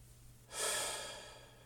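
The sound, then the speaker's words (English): One deep, slow breath: a soft, airy rush that swells quickly and then tapers off gradually, quiet over a low steady hum. “And take a nice, deep breath, letting it out slower than it came in.”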